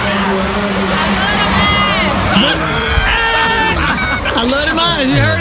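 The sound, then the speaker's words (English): An audience cheers, screams and shouts as actor Michael Ealy is announced with a film cast, a dense, loud wall of excited voices sustained without a break. “And here's Michael Ealy gets announced. And listen to the audience, though. They wouldn't stop. This went on for about a minute or two.”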